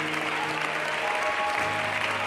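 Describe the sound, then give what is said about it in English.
A church audience claps their hands in praise: dense, continuous applause from many people, steady and full throughout. “Let's give Jesus a great big hand clap of praise.”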